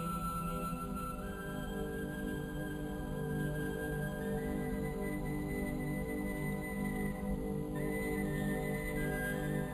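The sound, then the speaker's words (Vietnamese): A bamboo flute played softly at night, drawing out long, quiet held notes that step to a new pitch now and then over a steady background. “ngồi xuống trên một chiếc ghế gần bên để lắng nghe tiếng sáo dìu dặt bỗng trầm trong canh khuya.”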